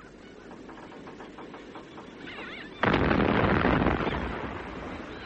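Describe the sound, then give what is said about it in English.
Gunfire thunders as one heavy boom partway through, then a long rumbling tail slowly fades. Before it, only a quiet murky background is heard. “Is there no news? Just the guns, Sir Walter.”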